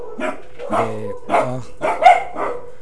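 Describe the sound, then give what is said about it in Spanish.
Dogs barking in a short burst of several sharp, fairly low barks in quick succession, with no talk over them. “Fíjense, porque los perros se ponen perros, luego no dejan chambear, hacer el trabajo.”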